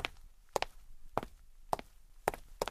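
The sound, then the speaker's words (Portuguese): Crisp footsteps walk at an even pace, roughly two steps per second, each footfall a sharp tap over a quiet background. “Seguindo viagem, agora caminhando.”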